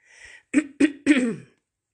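A person clears phlegm from their throat: a soft rasp, then three sharp, harsh bursts in quick succession, loud with no talking.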